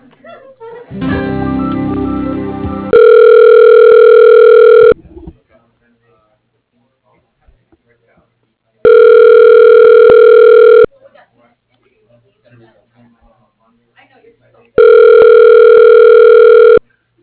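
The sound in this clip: A telephone line rings while a call is being transferred to voicemail. After a brief noisy burst come three loud, steady ring tones, each about two seconds long, separated by long silent gaps.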